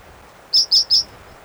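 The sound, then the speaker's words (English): A bird calls with three short, high-pitched chirps in quick, evenly spaced succession, clear and loud against a quiet background. “Might be a second bird crying.”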